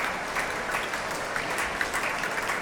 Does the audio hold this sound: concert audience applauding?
yes